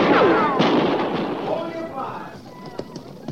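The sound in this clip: Gunfire rings out in a few sharp reports with thin whistling streaks trailing through the air, the loud opening burst gradually thinning and fading toward the end.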